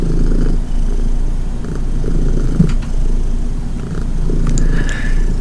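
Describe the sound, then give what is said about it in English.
A cat purring, a steady low rumbling drone with a gentle pulsing texture that continues throughout, heard alone without talk. “I'm not 100% sure if you can hear the purring, but why don't you give a listen?”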